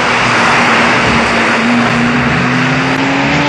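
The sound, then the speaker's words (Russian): A race car engine roars loudly and continuously as the car speeds through a sharp left turn in a desert rally. Its droning tone rises slowly in pitch amid broad road noise. “Крутой левый. Машина Жан-Луи несется вперед.”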